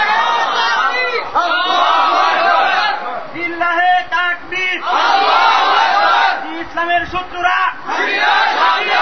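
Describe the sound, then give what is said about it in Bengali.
A crowd at an Islamic religious gathering loudly chants takbir slogans, massed voices shouting together in repeated bursts separated by brief pauses. “Slogan দিলে জোরে দিবেন যেন শয়তান ভয় পেয়ে চলে যায়”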